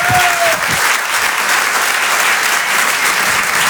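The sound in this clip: Audience at the Apollo Théâtre comedy stage in Paris applauds a comedian: dense, loud, sustained clapping that holds steady throughout.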